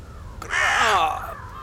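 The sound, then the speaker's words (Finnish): A crow at the edge of a busy market square gives a single loud, harsh caw that rises out of a quiet background and then fades. “Tervetuloa Vilkkaan torin laidalle tutustumaan nokkelaan ja fiksuun lintuun nimeltä varis.”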